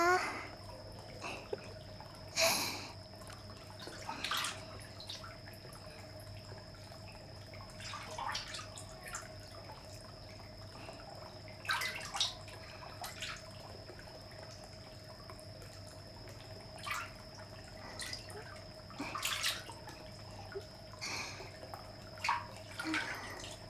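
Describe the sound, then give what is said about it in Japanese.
Water in a hot spring bath, heard as scattered drips and soft splashes recurring irregularly over a faint, steady background hum. “はあ、いいお湯、体にしみる、くつろぐわ。”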